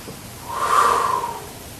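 A person takes a single audible breath, a soft airy rush that swells in the middle and fades out over about a second, with no talking.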